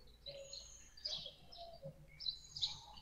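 Birds calling outdoors: faint, scattered high chirps and short tweets, mixed with a few lower whistled notes over a quiet background.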